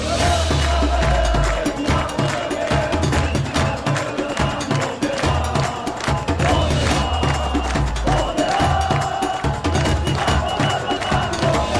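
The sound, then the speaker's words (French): Protesters bang saucepans in a casserolade against France's pension reform raising the retirement age to 64. Dense, continuous metallic clanging mixes with crowd noise, loud and unbroken throughout. “Ça y est, la bataille contre la retraite à 64 ans est passée à la phase casserolade. À l'avant les casseroles.”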